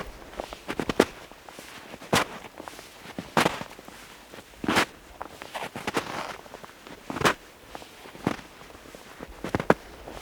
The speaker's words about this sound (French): Des pas monophoniques.